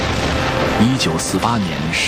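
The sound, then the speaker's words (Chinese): Artillery salvo from 156 cannons fired on the east gate of the old walled town of Xinbao'an in the 1948 battle. It makes a continuous, heavy rumbling roar, with a voice speaking steadily over it. “1948年12月22日7时，156门大炮向新保安古城东关齐射。”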